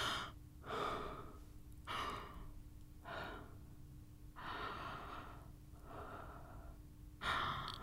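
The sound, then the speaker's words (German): Slow breathing in and out during a voice-training exercise: six soft, airy breaths in a steady, unhurried rhythm, faint and without talk, over a low constant hum. “Einatmen, ausatmen. Mein Atem streicht an meinen Stimmlippen vorbei.”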